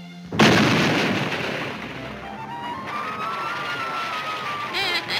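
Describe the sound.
A cartoon sound effect of exploding powder: one sharp, loud boom followed by a long, slowly fading rumble. A thin, steady whining tone then runs underneath for a couple of seconds.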